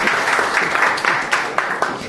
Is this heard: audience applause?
yes